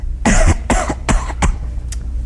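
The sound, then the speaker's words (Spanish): Deliberately forced coughs from one person trying to sound like they have a bad chest cold: a few harsh, loud bursts in quick succession, then a faint final cough and quiet. “tiene que toser más duro, chico.”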